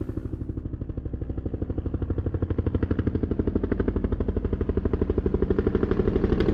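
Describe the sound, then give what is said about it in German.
A helicopter hovering overhead gives a steady, rapid, low rotor thumping that grows slightly louder toward the end, with no voices. “Jetzt steht er wieder über uns, der Hubschrauber. Hören Sie?”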